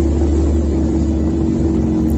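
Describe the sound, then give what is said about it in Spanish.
Military vehicles advancing on Kharkov during the war give a continuous, heavy, low engine rumble that stays steady throughout, with no voices. “Son los carros militares avanzando en este caso sobre Kharkov”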